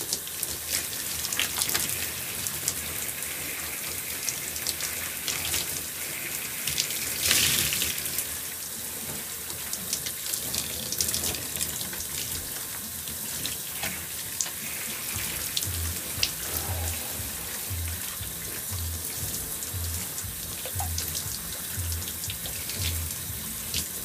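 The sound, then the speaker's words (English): Hair being rinsed under running tap water: a steady hiss and splatter of flowing water lasts throughout, with irregular splashes and brief breaks in the flow, and no talking. “I'm gonna rinse on my hair again.”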